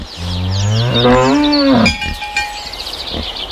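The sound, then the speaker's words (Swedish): Cattle mooing in a lively countryside among farm animals: one long, loud, rich-toned moo, followed by quieter scattered sounds. “ljudet av en levande landsbygd”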